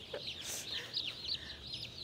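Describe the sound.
Chicks peeping, many faint high-pitched chirps overlapping in a steady chatter with no voices.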